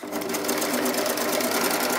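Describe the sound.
A sewing machine stitches all the way around a bag, running as a fast, steady, continuous mechanical whir at even loudness throughout.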